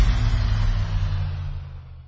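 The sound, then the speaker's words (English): A Nissan Armada Pro 4X's twin-turbo V6 engine gives a deep, steady rumble with no voices, holding at an even level before easing slightly toward the end. “Let's go for a ride in the Nissan Armada Pro 4X. Tune out all those work emails and turn up that twin-turbo V6 engine.”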